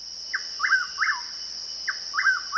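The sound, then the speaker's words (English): A willow flycatcher sits hidden in a large shrub and gives short, downward-slurred chirps in two groups of three. The sharp calls are fairly faint, over a steady high insect-like hum. “A willow flycatcher, ensconced in a large shrub, makes short, darting flights to snap up insects without leaving the shelter of the greenery.”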